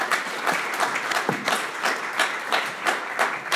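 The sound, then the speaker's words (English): Audience applause welcoming a speaker to the stage: dense, steady clapping that holds at an even level throughout, with no voices over it. “So with that, I just would like to ask you to give a hand for our friend Bill Ayers, and then we'll begin the show.”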